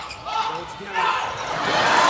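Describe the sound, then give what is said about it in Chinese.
A volleyball is struck for a serve during a match against Japan: a ball impact over a steady crowd roar that swells louder toward the end. “好，发球。”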